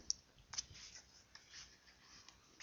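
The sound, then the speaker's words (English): A note handwritten with a pen gives faint, scratchy strokes in short, irregular bursts, with a few sharper taps among them. “Let me write myself a note.”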